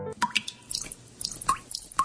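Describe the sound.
Water dripping from a leaking tap: a few bright, plinking drops ring out at irregular intervals, with soft wet splashes and ticks between them.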